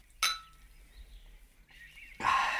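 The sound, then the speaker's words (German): Two small glasses of port clink in a toast: a sharp glassy chink, then after a quiet pause a second, louder ring that lingers to the end. “Da wollen wir zwei Gläschen mit Porto füllen und anstoßen.”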